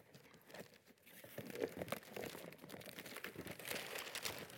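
A wrapper is ripped open with quiet crinkling and tearing, a continuous run of small crackles and rustles throughout.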